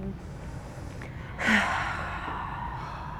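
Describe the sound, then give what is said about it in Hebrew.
A single deep breath taken during a guided seated relaxation exercise, drawn in and then let out through the mouth as a soft breathy rush that swells briefly and fades slowly over faint background hiss. “שאיפה לשחרור מהפה.”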